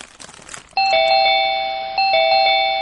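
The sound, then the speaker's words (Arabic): A doorbell rings twice, each ring a bright two-note ding-dong chime with sustained tones. Both rings follow a short stretch of low background noise. “رن الجرس ووصل إيهاب صاحب عمرو.”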